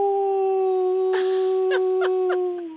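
Jackals howl in a long, steady, high-pitched wail that holds throughout, cut by four short, sharp yelps in the second half before the wail fades out.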